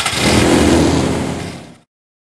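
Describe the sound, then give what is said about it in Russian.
An old jalopy's engine roars in a loud, harsh, sustained rev for just under two seconds, then cuts off abruptly into silence. “Да заводи ты наконец свой тарантайк.”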